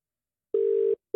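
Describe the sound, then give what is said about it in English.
A telephone ringback tone as radio hosts call a listener: one steady mid-pitched electronic tone, a short pause, then a second tone that is cut off. “So a lot of people have texted. Let's give them a call.”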